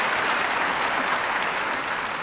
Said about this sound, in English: Maybe we can give Bonnie a hand just to congratulate her for all that great work.